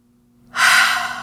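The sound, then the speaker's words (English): One deep breath follows a moment of near silence: a single loud, breathy rush of air that swells quickly and holds steady to the end. “Deep breath.”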